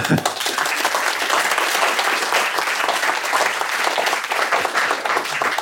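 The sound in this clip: An audience gives steady, full applause as Eric Schmidt is welcomed on stage, with continuous clapping that holds at an even, loud level for the whole clip.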